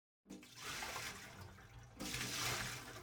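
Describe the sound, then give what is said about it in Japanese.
Hot water poured over a person's body at a bath: a steady rushing splash that starts abruptly, eases slightly, then surges louder for the last second, with no voices. “一度、お湯で体を流させていただきます。”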